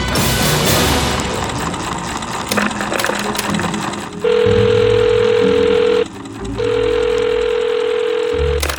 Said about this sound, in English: And now, another mysterious message left on my machine.